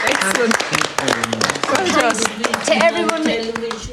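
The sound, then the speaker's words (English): A round of applause from a small group, many sharp, irregular claps with voices talking over them. “Yeah, listen, you've been fantastic. I think you all deserve a round of applause.”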